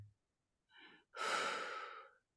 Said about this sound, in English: basically you say the victory, you kind of sip it in 3 syllables. So victory, you breathe in that way and then breathe out that way. Victory. So it sounds like this.